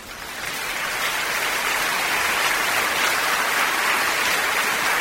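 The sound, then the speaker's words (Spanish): An audience applauds a Spanish dance performance at a spring festival show, a dense, steady wash of clapping that swells in the first half second and then holds loud and even, with no voices. “¡Un gran aplauso!”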